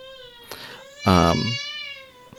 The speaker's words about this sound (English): sorry, I think I hear, my child? Your kid back there.